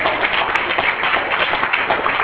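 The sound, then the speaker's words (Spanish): A church audience applauds with dense, continuous clapping that stays fairly even in loudness over a couple of seconds. “¿Cuánto le pueden dar un aplauso a ese Cristo maravilloso?”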